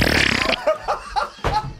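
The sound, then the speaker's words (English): A fart: a short, loud buzzing blast, followed by several quick bursts of laughter. “And he hates farts. I hope you don't ever combo those up.”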